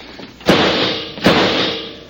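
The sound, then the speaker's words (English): Two gunshots fired at a man at the bottom of a fire escape: a pair of loud, sharp bangs less than a second apart, each trailing into a long decaying roar over a steady noisy background, with no talking. “That second shot was dead center.”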